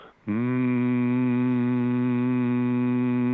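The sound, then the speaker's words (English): A voice hums one low note for about three seconds: a steady monotone, rich in overtones, holding the same pitch and loudness throughout with no other sound. “just holding one note on what they call a monotone and not trying to be musical or whatnot”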